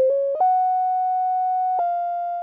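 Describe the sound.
A pure sine tone, like a tuning fork's, plays a short melody of three sustained notes: a brief lower note, a step up to a long held note, then a slight drop to a lower held note. The tone is steady, loud and alone.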